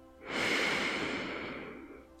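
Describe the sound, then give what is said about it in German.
A deep breath drawn in through the nose during a guided letting-go relaxation exercise: one long, steady, airy inhalation of about two seconds, heard alone without talk. “nimm einen tiefen Atemzug durch deine Nase ein”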